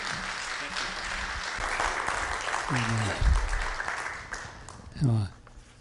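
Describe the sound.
Audience applause welcomes a pastor arriving to speak at a morning church service. The clapping is dense and steady throughout, with a few voices rising briefly above it.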